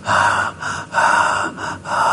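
A person imitates gulping down a drink thirstily with repeated loud gasping breaths, strong inhales alternating with softer exhales in a steady rhythm.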